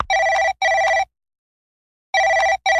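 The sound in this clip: A telephone rings in a repeated double-ring pattern: two short, bright electronic trills, a pause of about a second, then two more. The ringing is loud and heard alone with no voices.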